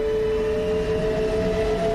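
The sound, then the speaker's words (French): Train pulling away, a passenger train with a goods wagon and a mail wagon at the rear, giving off a steady, loud metallic rumble with a constant tonal hum and no voices. “Le convoi s'ébranle dans un puissant grondement métallique.”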